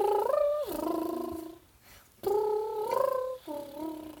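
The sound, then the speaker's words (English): A voice imitates a purring, warbly animal noise: two wavering, trilling voiced phrases with a quavering, shifting pitch and a short pause between them, fairly loud and with no other talk. “Well, purrish sort of warbly noise. It's like a purrish warbly noise? It sounds kind of like this.”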